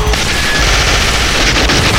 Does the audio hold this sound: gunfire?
yes